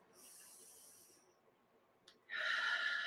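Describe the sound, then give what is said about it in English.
A deep breath drawn in and let out during a guided breathing exercise: a faint, airy hiss of inhaling, a pause, then a louder, rushing exhale near the end. “All right, so take a deep breath and let it out. Deep breath in.”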